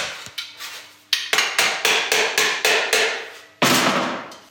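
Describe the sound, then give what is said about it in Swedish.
A tinsmith hammers a sheet-metal drainpipe bend together in traditional heritage style, forming sharp seams. Many loud, ringing metallic blows fall in a steady, even rhythm, with a brief pause before the final strikes. “Skarprörsböjen fogas ihop och får det utseende som kännetecknar kulturplåtslageri. Med tydliga skarpa falsar på rör och plåttak,”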